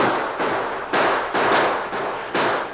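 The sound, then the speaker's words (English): Gunfire in a gunfight, a radio drama sound effect: a rapid, continuous series of loud, harsh blasts, each burst crackling and fading into the next without a pause. “And the gunfight continued without any let-up, and Soapy's men crawled closer and closer.”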